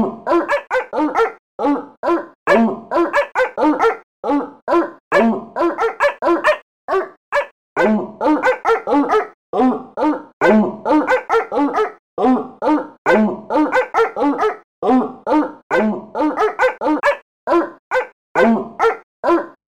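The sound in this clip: Many sharp dog barks in tight rhythmic phrases, loud and steady throughout, with brief gaps between bursts and occasional higher yips.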